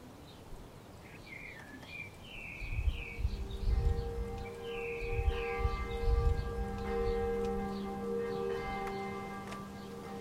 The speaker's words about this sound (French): Mais on aperçoit le clocher, devrait pas tarder à sonner d'ailleurs.